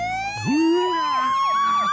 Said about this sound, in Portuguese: Toca a sirene aí. Vem, sirene.